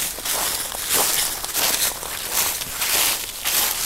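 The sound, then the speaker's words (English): Footsteps crunch along a dry path on the outskirts of Royal Bardia National Park in Nepal, a steady walking rhythm of scuffing steps over a constant hiss. “We've been walking for about 15 minutes up a dry walk on the outskirts of the Royal Bardia National Park with the head of the anti-poaching unit from the Nepalese army.”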